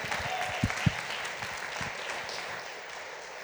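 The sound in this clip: Audience applause welcoming a speaker to the stage at a morning gathering: steady, dense clapping from many hands throughout, with a few louder claps standing out near the start.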